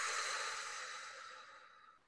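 A long, slow exhale during meditation, a soft, steady, airy rush that gradually fades away, with no talk.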